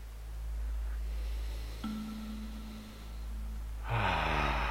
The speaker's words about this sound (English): Let's just take one first deep breath together. 3, 2, 1.